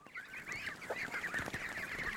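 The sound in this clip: Ducks at a small duck farm raising birds for foie gras honk and quack continuously in overlapping, nasal calls, fairly faint and with no talk.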